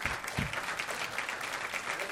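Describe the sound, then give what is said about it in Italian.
An audience applauds the supporters and contributors of a book at a book event, with dense, continuous clapping that holds at a steady, moderately loud level from start to finish. “un applauso grosso a tutti i sostenitori e tutti i collaboratori di questo libro, lo voglio fare subito fortissimo”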